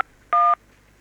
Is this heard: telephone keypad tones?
yes